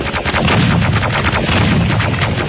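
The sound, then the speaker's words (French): Video game gunfire rattles in dense, rapid bursts that stay loud and continuous, with a heavy rumbling weight throughout. “Il a pas vu, il est en train de tirer sur l'autre.”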